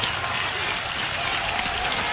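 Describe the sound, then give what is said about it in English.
A baseball stadium crowd cheers and claps as Iowa's tying run comes to bat with two outs and runners on the corners, forming a steady broad roar with no clear breaks. “Runners at the corners. Crowd comes to life here.”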